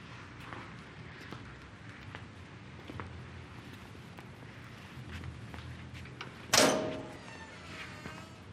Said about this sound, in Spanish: Voltea a ver al joven y cierra la puerta atrás de sí.